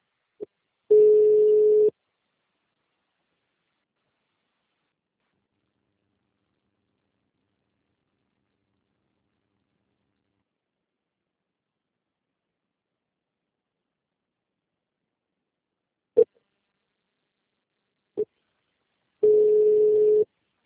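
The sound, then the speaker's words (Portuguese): Ringback tone of a phone call ringing out: two tone bursts of about one second each, separated by a long silence broken only by a few faint clicks. “Tô ligando pra ela de novo, velho.”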